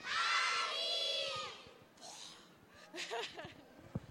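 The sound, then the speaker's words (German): An audience of children shouting a name together on cue, one loud sustained call of about a second and a half, followed by scattered noise and then a person starting to talk. “Ich glaube, wir müssen noch mal lauter rufen, aber dann bin ich mir sicher, dass das klappt. Also wieder bei drei, ganz laut Kali. Eins, zwei, drei.”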